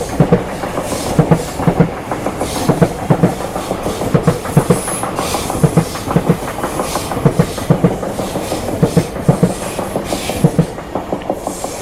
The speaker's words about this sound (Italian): We will wait a train passes by.